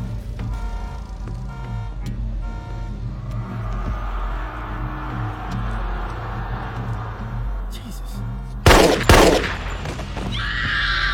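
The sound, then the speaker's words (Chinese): Near the end, a couple of sharp, loud gunshot blasts break over a steady rumbling, tonal bed in a tense crime-drama shootout scene. “枪枪都往心脏招呼，可他还像个没事人一样。”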